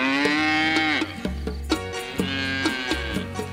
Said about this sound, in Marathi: गाय म्हणाली,